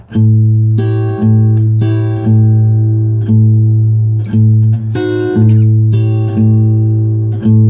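Two bars of fingerpicked blues on guitar: a steady, loud thumbed bass note pulses under higher plucked notes that shift down one fret and back, with many crisp attacks in an even rhythm.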